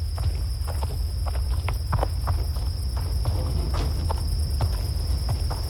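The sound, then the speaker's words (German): Footsteps of people walking around a well, a steady series of light, crisp steps over a constant low rumble and a faint, steady high-pitched tone. “Komm, wir gehen mal um den Brunnen herum und leuchten mit den Taschenlampen alles ab.”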